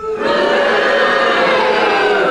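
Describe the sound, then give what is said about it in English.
Studio audience booing together on cue during a panel game, a loud, sustained mass of voices that holds steady for about two seconds. “If you think it was, will you cheer? And if you think it wasn't the same joke, in other words, you're on Derek Nimmer's side, you boo, and all do it together now.”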